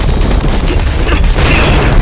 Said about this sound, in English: It's another earthquake. Everybody, run!